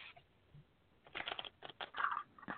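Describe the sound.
Playing cards being handled, with soft shuffling rustles that come in several faint bursts after a quiet start.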